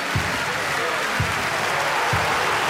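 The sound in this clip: Dense applause and cheering for a winner: a continuous wash of clapping noise with a few soft low thumps underneath, steady in loudness throughout the short clip.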